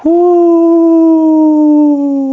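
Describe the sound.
A human voice imitates a dog's howl in one sustained, loud 'whoo'. The tone swells slightly at first, then slowly sinks in pitch over about two seconds.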